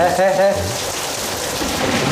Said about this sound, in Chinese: 哎呀，终于下雨了。 越下越大， 真好啊。